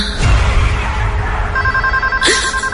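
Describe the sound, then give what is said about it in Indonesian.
A telephone rings suddenly in a room. A steady electronic ringing tone starts partway through and holds, with a louder burst of ringing near the end. “astaga, ini telepon bikin kaget aja deh”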